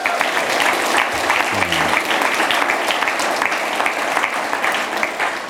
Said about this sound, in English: Can we give him a big old praise, y'all?